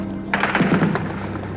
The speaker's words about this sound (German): Beginnt soeben wieder ein heftiger Schusswechsel.